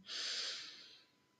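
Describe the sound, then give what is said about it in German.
One deep breath from a person, a soft airy rush that swells quickly, holds, then slowly fades, faint and alone. “Und beim Ausatmen, atme mit einem Seufzer aus. Nimm noch einmal tief Atem.”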